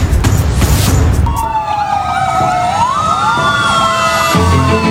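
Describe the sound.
An emergency vehicle siren wails in loud tones that sweep up and down. The siren rises over a heavy rumble and noise of road traffic at the start.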